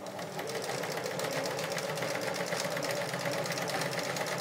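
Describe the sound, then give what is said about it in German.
Sewing machine stitching during a live sewing session: a continuous, fast, even mechanical whir and tapping that holds a steady rhythm throughout, with no talk. “Ich kann für dich nähen und du beantwortest die Frage.”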